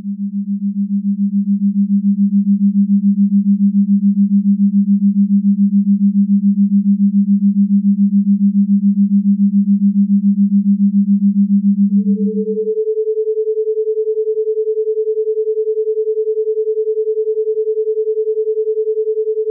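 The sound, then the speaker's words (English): Pure, steady sine tones for binaural beats play loud and alone. A low hum holds for about twelve seconds, then switches to a higher steady tone that continues to the end. “The third sound is called a binaural beat. Bada bing. Alright, let me play some for you so you can get an understanding.”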